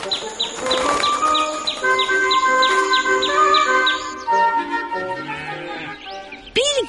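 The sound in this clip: A sparrow chirping: a regular run of many short, high tweets over sustained tonal sounds, followed by a few sliding whistle-like calls near the end.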